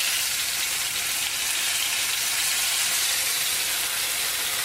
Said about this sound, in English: This shouldn't splatter too much, but if it's splattering a little bit, you can definitely use a little splatter shield